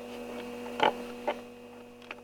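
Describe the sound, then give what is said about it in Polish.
A tape recorder's running mechanism, fed through a mixer, gives off a steady low electrical hum. A few brief soft knocks sound over it. “No oczywiście warczy, bo szum mechanizmu, wiadomo.”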